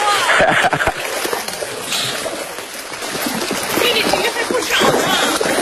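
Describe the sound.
Water splashes and churns as fish thrash while a net is hauled in from a pond stocked with grass carp, common carp and silver carp. Loud, irregular bursts of splashing run throughout, with people talking faintly.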